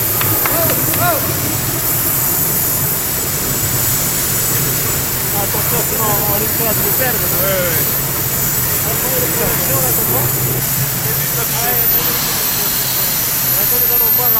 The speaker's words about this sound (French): c'est de la fonte donc qui sera chauffée avec de l'oxygène et automatiquement le trou se débouche. Et ça coule ici. Et vous avez la fonte liquide qui coule, attention, il y aura des projections là